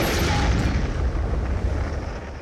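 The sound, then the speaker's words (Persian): A distant explosion rolls as a continuous low rumble that fills the whole clip, steady and loud, without a sharp onset. “صدای انفجار بعدی از دورتر میاد.”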